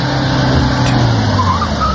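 A car stopping abruptly, heard as loud, dense engine and road noise that stays steady through the short clip.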